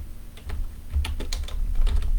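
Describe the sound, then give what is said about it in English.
Typing on a computer keyboard: many quick keystroke clicks in an irregular, busy rhythm over a low steady hum, with no talking. “I don't know why I typed that, because I can actually just say that, can't I?”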